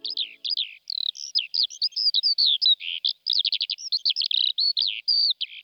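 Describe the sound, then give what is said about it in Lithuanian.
A common starling whistling a rapid, varied run of high chirps, slurred whistles and buzzy trills. Many short notes follow one another with brief gaps, and no talk is heard. “O čia varnėnas švilpauja.”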